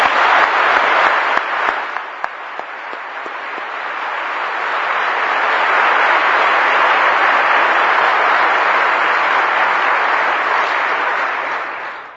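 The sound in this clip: An audience applauds to welcome guests back from Japan, Lebanon and Indonesia. A few scattered claps build into dense, steady clapping that holds for several seconds and then fades at the end.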